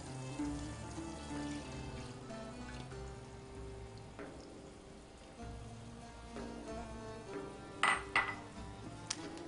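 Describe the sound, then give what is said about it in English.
Blood poured into a pot and stirred, a low, quiet liquid swirl with faint scraping, then a few sharper clinks of a utensil against the pot near the end. “So now, the moment that I have been waiting for, we're gonna add the blood. As I said, it's important to continually stir it to make sure it doesn't get too coagulated.”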